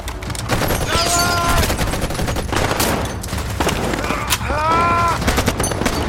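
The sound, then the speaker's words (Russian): Gunfire in a battle against German soldiers in a monastery courtyard: rapid bursts of rifle and machine-gun fire, with shouting voices rising between the volleys. “Егоров стреляет из-за нее по приближающимся немцам. Зинатулин встает, палит по немцам.”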